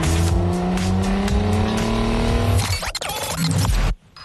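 A car driving off as a taxi: the engine revs with a steadily rising whine, then the tires squeal loudly for about a second before the sound cuts off abruptly.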